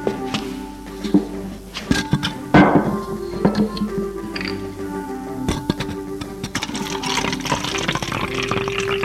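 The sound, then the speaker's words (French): Liquid pours from a bottle into a glass: a splashy burst of filling with a few small knocks and clinks around it, set against a cluttered background. “Il se remplit un verre.”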